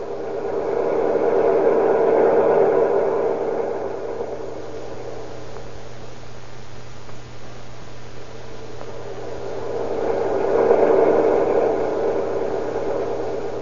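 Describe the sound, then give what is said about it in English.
A pump runs at a farm shed south of a farmhouse, a steady low whirring hum that swells louder near the start and again near the end, with no voices. “You hear that pump? Well, wait a minute. Cut off your motor.”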